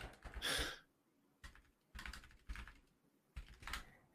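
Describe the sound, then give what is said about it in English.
Short bursts of typing on a computer keyboard as a search is entered, a few separate clusters of quick keystrokes with brief pauses between them, fairly faint. “Wait, just type in Poop Cactus DLJ, see what comes up.”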